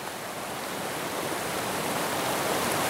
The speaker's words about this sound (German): Der Fluss läuft hier auf diesen Felsen zu.